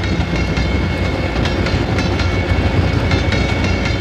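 A train rolls past with a loud, steady rumble. A faint, regular clatter of wheels runs under it for the whole stretch.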